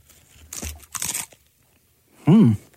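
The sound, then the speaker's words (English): Crunching chips dipped into a thick dip like mashed potatoes: two crisp, crackling bites in a row, then a short voiced murmur. “You're putting a chip inside like mashed potatoes, so you're going to have to get in there with two chips.”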